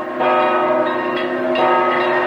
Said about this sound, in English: Outside, bells ring in a tower atop the cathedral.